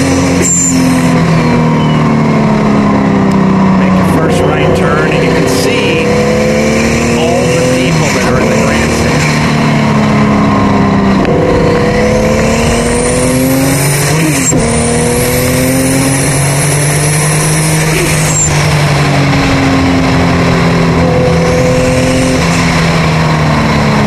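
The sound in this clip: A car engine revs hard through the gears, its loud, continuous drone climbing in pitch, then dropping sharply at each shift, several times over.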